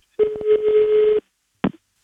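Telephone tones as a number is dialed: a steady, buzzy tone of about a second broken by quick clicks, then a short beep after a pause.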